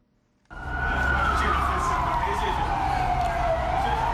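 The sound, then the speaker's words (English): A police water cannon vehicle's siren wails at an anti-government protest in Harare, Zimbabwe: one loud, long tone that slides slowly downward in pitch over a low rumbling background. “That is the siren of a water cannon vehicle wailing as Zimbabwean police tried to break up a protest calling for the resignation of President Robert Mugabe.”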